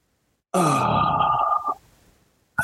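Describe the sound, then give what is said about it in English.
A deep, controlled exhale follows a breath hold during a guided breathing exercise. It comes as a loud, voiced, groan-like breath lasting about a second, then trails off into a faint breathy tail. “Oh, big exhale.”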